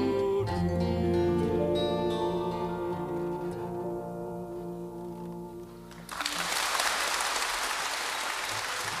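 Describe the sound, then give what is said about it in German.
Applause from an enthusiastic audience at a London concert in July 1968 breaks out as the music ends, a dense, steady roar of clapping that runs loud for the last few seconds. “Ein begeistertes Publikum in London am 10. Juli 1968.”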